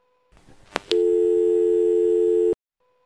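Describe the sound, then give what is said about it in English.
A telephone beeps after a voicemail message: a couple of sharp clicks, then one loud, steady electronic tone held for about a second and a half before cutting off abruptly. “No, it just beeps.”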